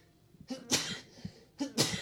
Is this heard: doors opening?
no